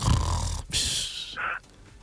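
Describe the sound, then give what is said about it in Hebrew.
A voice imitates a wife snoring at dawn with a few rough, breathy snorting bursts followed by a short, higher nasal tone, fairly loud and alone. “אשתו בשעה כזאת נוחרת.”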